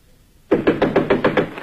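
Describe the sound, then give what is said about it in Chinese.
Knocking on a door, a quick, even series of firm knocks that starts sharply after a brief silence. “这时传来敲门声，是雅果的妻子艾米莉亚”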